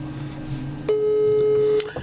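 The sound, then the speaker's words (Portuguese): An incoming telephone call signal sounds as a single steady mid-pitched beep lasting about a second, then cuts off. It sits over a low, continuous background hum. “eu tenho que responder aqui a esta chamada”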